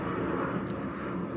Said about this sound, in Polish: Dziś jest parada Wojska Polskiego i no. Latają samoloty i jeżdżą w amerykańskie coś tam.